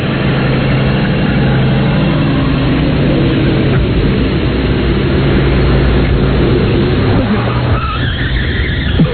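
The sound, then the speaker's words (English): A tire screeching sound effect: a long, continuous squeal over a low engine rumble that holds steady and loud throughout, turning harsher and more ragged near the end. “Okay, and then you have tire screeching. Two. Tire screeching.”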